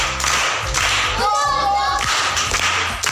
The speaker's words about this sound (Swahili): Makofi kwa shangazi.